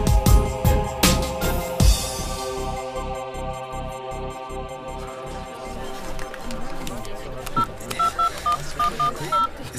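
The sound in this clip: Mobile phone keypad dialing tones: a quick series of short, clipped electronic beeps near the end, following a busy, rhythmic stretch of other sound.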